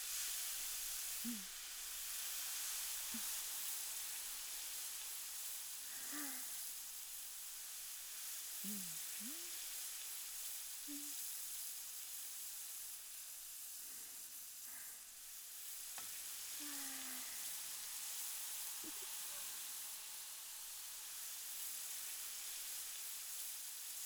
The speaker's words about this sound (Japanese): じゃあうちの変わり種商品カブを焼きますよ。